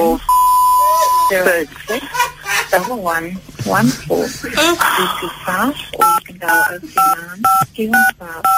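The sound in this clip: Telephone keypad dialing tones during a call transfer, several short beeps in a quick sequence near the end. Before and around them, a voice talks and chuckles.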